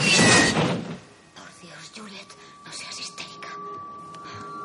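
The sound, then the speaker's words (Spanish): A window slamming shut in a thriller film: one loud, sharp bang at the start, then a quieter stretch where a voice speaks over a faint steady tone. “Juliet se acerca a la ventana y esta se cierra de sopetón.”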